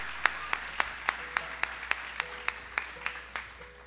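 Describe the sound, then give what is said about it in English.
Applause welcoming performers to a stage: a steady run of evenly spaced claps, each one sharp and brief, forming a regular rhythm that stays faint throughout. “let's just give them a warm welcome. Enjoy yourselves, and hope you're having a good time. Let's give them a hand.”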